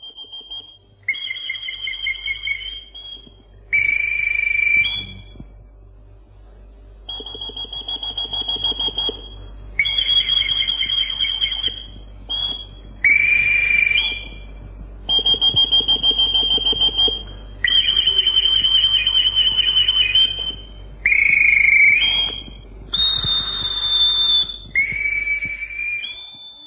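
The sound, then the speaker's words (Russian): Ship's boatswain's whistle signals played by an old boatswain: a series of shrill, high piping calls, with held tones broken by warbling trills and quick slurred notes, separated by short pauses over a low background hum. “С еще большим трудом разыскали старого боцмана, который, к счастью, знал корабельные сигналы. Давно уже нет в живых того боцмана. А исполненные им сигналы до сих пор звучат в фильмах.”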